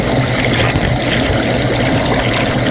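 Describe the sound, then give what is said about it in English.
Underwater turbulence at the base of a dam: a loud, continuous rushing roar with gurgling water churn that stays steady throughout, with no voices. “Jim made an underwater video to give a fisheye view of the base of a dam. And it's definitely a disorienting place to be.”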